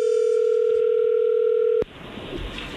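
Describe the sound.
Loud, steady telephone dial tone heard while placing a call, a continuous even hum that cuts off abruptly with a click after nearly two seconds, leaving low line noise.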